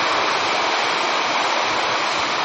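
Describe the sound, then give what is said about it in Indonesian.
Heavy rain pours down in a dense, unbroken hiss that stays loud and even from start to finish, with no voices over it. “Bisa dengar? Hujan enggak? Hujanan.”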